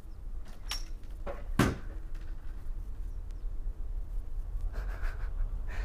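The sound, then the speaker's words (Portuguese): Knocking on the wall from next door, a few dull, irregular knocks over a low, steady background. “Começaram a bater aqui, ó, do lado.”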